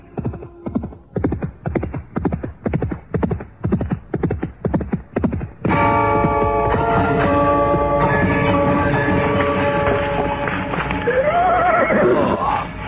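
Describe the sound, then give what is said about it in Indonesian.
A horse gallops, its hoofbeats forming a fast, steady, rhythmic pattern for about six seconds. A dense sustained sound then takes over, and near the end a horse neighs clearly within it. “tiba-tiba mereka dikejutkan oleh suara derap seekor kuda yang datang dengan cepatnya.”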